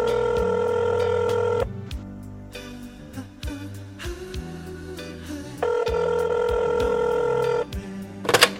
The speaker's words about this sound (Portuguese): Vou fazer a ligação aqui.